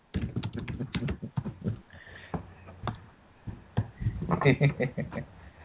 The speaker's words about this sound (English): Yeah, I can type it to her. Okay, I'm ready then. Okay, well, type back to her.